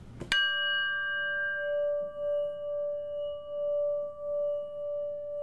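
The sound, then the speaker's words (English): A singing bowl is struck once and then rings on in a long, sustained tone with bright overtones, its loudness gently pulsing and wavering as the ring holds steady without fading much. “So I want you to hear the sound of the singing bowl, which is one of my absolute favorite sounds”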